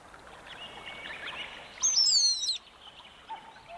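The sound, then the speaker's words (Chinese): Birds chirping across a hillside, with a steady bed of overlapping tweets and calls and a louder cluster of high, sweeping whistled chirps in the middle before it settles back to busy background twittering. “这一天，整座小山兴奋地沸腾起来，到处叽叽喳喳，此起彼落。”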